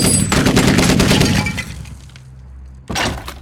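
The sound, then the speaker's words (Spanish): Gunshots: a loud bursting blast that decays slowly over more than a second, then a second abrupt blast after a short quiet stretch. “Haré otro tiro porque hablaste. Ya disparaste. Yo dispararé ahora.”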